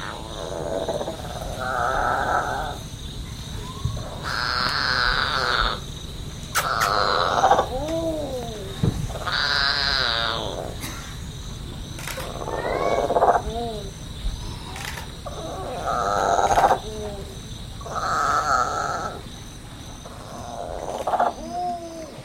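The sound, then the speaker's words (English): High, wavering cries of a monkey calling for its mother on the banks of the Amazon River, repeated many times in short harmonic bursts, some sweeping downward, over a steady background hum. “This is the sound of a monkey crying for its mother on the banks of the Amazon River.”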